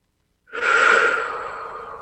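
A single deep breath drawn in after a moment of silence, a breathy, airy rush that swells quickly, peaks, then tapers slowly while still sounding at the end.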